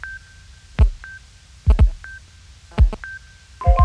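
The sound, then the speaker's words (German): Telephone tones as callers join a phone conference: a thin, steady beep keeps breaking off between a few clusters of heavy thumping clicks, with no talking. “Wir begrüßen Sie zu einer CSN-Telefonkonferenz.”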